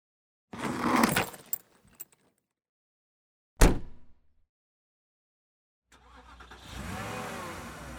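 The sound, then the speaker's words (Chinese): A car engine starts and idles as an aunt drives up to collect children. Jangling keys and a few sharp clicks come before it, then a silent gap, then a steady low engine rumble. “两天后，姑姑开车来接他们，把行李塞进后车厢，正德却一直没上车。”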